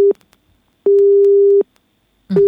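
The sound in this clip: A telephone line tone sounds while a caller is being connected: steady, low, pure beeps separated by silence, with one long beep in the middle and clipped beeps at the start and end.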